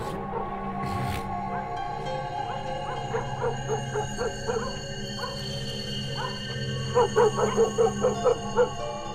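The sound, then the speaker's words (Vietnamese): Dogs bark faintly from the end of a street at night, in two rapid runs of yipping barks over a steady background drone. “Văng vẳng ở đầu đường, tiếng chó cắn ma cứ nhấm nha nhấm nhặng.”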